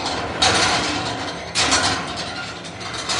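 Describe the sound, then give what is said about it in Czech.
A hand-cranked machine rebuilt from excavated fragments turns its paddles around a vertical axis that spins a half-litre of beer, giving a steady mechanical whirring rattle with two louder surges. “to je vlastně unikátní stroj, který byl sestrojen podle tors, které jsme vykopali u Blšán, a zkusím zatočit.”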